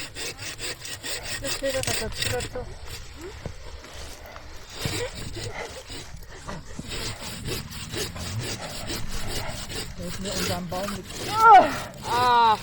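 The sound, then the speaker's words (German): A saw cuts through a standing tree trunk with many rhythmic rasping strokes, the gritty wood-grinding sound steady throughout, while people talk over it. “Die Säge, die knackt.”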